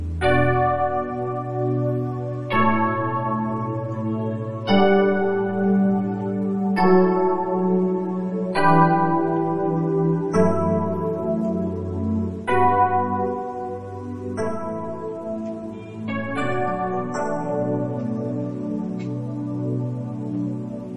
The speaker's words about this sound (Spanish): Al final suena el pad del Dyno Piano. Vamos a escucharlo. Creo que ahí al fondo suena el pad.